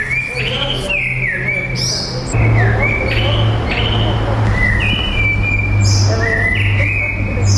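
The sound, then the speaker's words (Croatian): Birds singing in a monastery courtyard beside a busy street: many overlapping chirps, whistles and trilled phrases at varied pitches, fairly loud and continuous over a steady low hum. “Evo, ove su nas ptice dočekale u tom budućem svetištu, naime iz ulice Pomerio”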